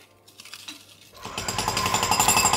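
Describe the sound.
Loud construction site noise with rapid, rhythmic mechanical pounding like a jackhammer. It kicks in abruptly after a quieter start and keeps hammering steadily.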